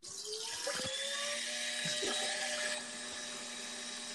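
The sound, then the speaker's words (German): Construction site noise sits faintly in the background: a high, whining drill-like machine tone with shifting pitch, steady for several seconds before easing slightly. “ist bei dir eine Baustelle im Hintergrund? Oder staubt es auf jemand bei dir?”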